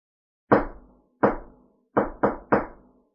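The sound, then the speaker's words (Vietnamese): Five knocks on a courtyard door: two slow, evenly spaced knocks, then three quick ones in close succession. Each is a sharp, resonant thud that dies away quickly, with no voices. “Hầu Tế Lôi tiến đến gõ cửa”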